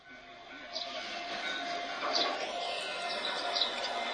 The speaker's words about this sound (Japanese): 今入ってきました。二両連結の電車ですね。 木の枕木ですよ。